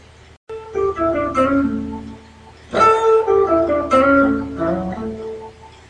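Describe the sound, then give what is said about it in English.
Blues guitar plays B.B. King-style lick number two alone, two short phrases of ringing single notes and string bends with a brief gap between them, clear and fairly loud. “Okay, and that is BB lick number two.”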